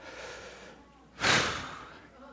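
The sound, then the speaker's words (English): A speaker takes a single sharp breath, a brief, loud rush of air that tails off over about a second over a low, steady background. “Take a breath.”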